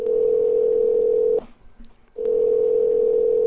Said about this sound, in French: Donc, on l'appelle à l'instant.